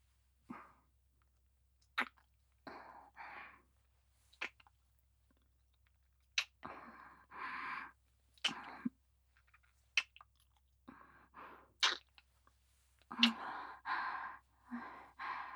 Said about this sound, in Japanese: お姉ちゃんのキスもとっても気持ちいいから、たくさん楽しんで。